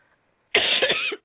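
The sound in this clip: A person's harsh, heavy coughing: a few rough bursts run together in under a second, loud and alone with no talk around them.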